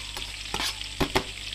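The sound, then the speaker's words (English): Garlic frying in bubbling butter over medium-high heat gives a soft, steady sizzle broken by a few sharp scraping stirs of a utensil in the pan, with no talk. “And then into the butter, I'm going to add our garlic.”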